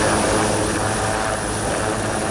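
A military helicopter during a naval amphibious landing exercise on an island: a steady, loud drone of rotor and engine that fills the whole stretch without letup, and no talk.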